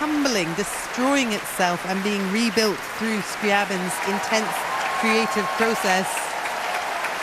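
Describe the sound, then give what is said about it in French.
A concert audience applauds the woodwind section, a steady patter of clapping running beneath a person talking. “Huge cheer there for the woodwind section. And there are the horns.”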